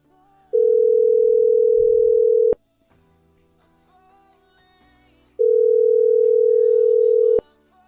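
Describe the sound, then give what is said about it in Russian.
A telephone ringback tone plays while a call is placed: two long, steady, single-pitch tones of about two seconds each, separated by a quiet gap of roughly three seconds. “Попробую на него набрать. Может, возьмет трубку, черт.”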